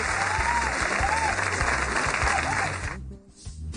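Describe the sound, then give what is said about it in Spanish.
Dense audience applause welcoming a guest at a live show, a steady, loud wash of many hands that holds for about three seconds before dying away sharply. “por eso recibimos con un fuerte aplauso a María Eugenia Penagos”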